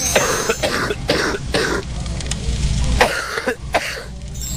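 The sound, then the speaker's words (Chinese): Deep, heavy, phlegmy coughing blamed on stubborn phlegm in the spleen: several harsh, forceful coughs with rough, wet throat sounds between them. “顽痰在脾呀，它这个咳的声音应该是更往里了哈， 咳声或者痰声相对比较深一点啊，比较重浊一点 啊，什么样呢？我们一起来听一下。”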